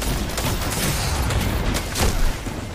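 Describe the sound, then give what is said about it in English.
Rocket launcher fire and explosions from the video game Destiny 2 make a dense, continuous roar of booming blasts and gunfire. The barrage swells louder briefly near the end. “He's coming, got a rocket. Watch out. He's got a rocket. He's above me, watch out.”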